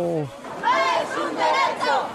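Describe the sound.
An angry crowd shouts at the wedding banquet at Cana, staged as a comic scene. A short voice at the start gives way to loud, swelling bursts of massed yelling.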